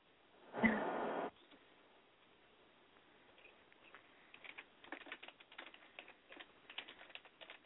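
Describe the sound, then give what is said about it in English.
Keyboard typing as someone writes a Facebook post: many quick, light, irregular key clicks, faint and alone, following a brief burst of louder noise at the start. “Hold on, I'm typing it on Facebook.”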